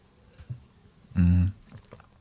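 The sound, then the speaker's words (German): A quick sip of a drink: one short, full gulp-like burst near the middle of an otherwise quiet stretch, with no talking. “Kurz Schluck trinken.”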